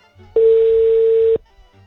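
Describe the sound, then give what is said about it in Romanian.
A telephone ringing tone on a call to the mayor of Borșa in Maramureș: a single steady, flat, mid-pitched tone lasting about a second, with faint background noise before and after. “Deci încercăm să ajungem la Borșa, în județul Maramureș, dragii noștri. Vedem, ne va răspunde sau nu ne va răspunde domnul primar.”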